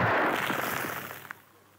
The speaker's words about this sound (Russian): схватил одну из своих заветных лимонок, вырвал кольцо и бросил бомбу в коридорчик.